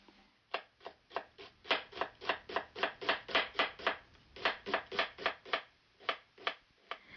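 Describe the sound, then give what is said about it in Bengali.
A knife finely chops onion for tartar sauce, making many crisp, evenly spaced cuts in a brisk, steady rhythm. The cuts are fairly quiet and continue without pause, with no voices. “এছাড়াও সূক্ষ্ম কুচি করে পেঁয়াজ কেটে নিন এবং ডিমের পাত্রে রাখুন।”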